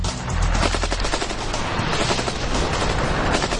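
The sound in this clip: An AK-47 automatic rifle, fed from a 30-round magazine at about 600 rounds per minute, fires a long unbroken burst of rapid, loud cracks that run together into a dense rattle, with no voices.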